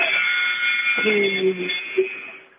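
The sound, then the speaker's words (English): Buzzer marking the end of the first half of a basketball game, a steady sustained electronic tone holding level across the whole stretch before fading at the close. “all right, that buzzer is the end of the first half, 27-18 in favor of the T-Jack.”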